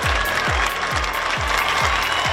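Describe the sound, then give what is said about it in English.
A crowd of Pope Francis's admirers makes dense, continuous noise in support of him. A steady beat of deep low thuds repeats at a regular pace underneath, and the din stays loud and even throughout. “You're hearing the sounds of Pope Francis's admirers sending their support”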